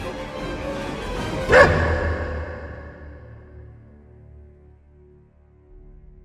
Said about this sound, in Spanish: dando un portazo tan violento que el perro no tuvo más remedio que ladrar